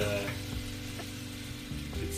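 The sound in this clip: Food frying and sizzling in a pan while grits are being cooked, a continuous soft hiss with a few faint knocks scattered through it.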